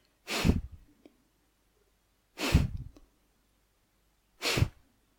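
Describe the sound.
Three sharp, forceful exhalations during a guided breathing exercise, breathed out as if blowing a feather away. Each is a brief, breathy rush, about two seconds apart, with near silence between them.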